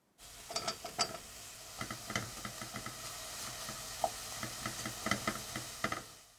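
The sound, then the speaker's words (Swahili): Mushrooms and onions fry in a pan, a quiet, even sizzle broken by scattered light clicks and taps as the food is stirred. “Sasa ongeza uyoga, vitunguu vikishakuwa angavu na uviache vianze kukauka kidogo.”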